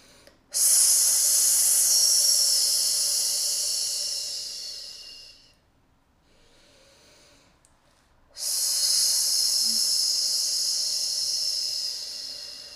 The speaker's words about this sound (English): with a snake breath, you're going to breathe in through your nose, and it's going to be out through your mouth long as you can, and with an S sound.